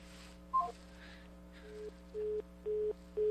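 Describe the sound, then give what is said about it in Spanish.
A telephone disconnect tone after a dropped call: four short, evenly spaced mid-pitched beeps near the end, preceded by one brief higher blip, over a steady low hum. “Se nos cayó la llamada.”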